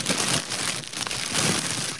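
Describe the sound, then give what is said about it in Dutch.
Crinkling of plastic foil as an item with two suction cups is unwrapped, a continuous dense rustle and crackle of fairly steady loudness with a few brief dips. “maak hem maar open. Hij zit nog in de folie.”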